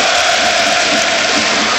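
Basketball arena crowd applauding Panathinaikos: a loud, continuous wash of clapping and crowd noise with no clear breaks.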